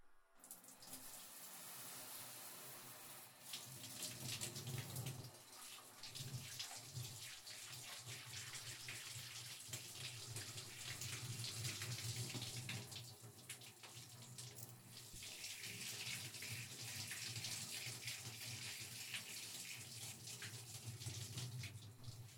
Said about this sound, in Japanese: それじゃあ、シャワーで流していきますよ。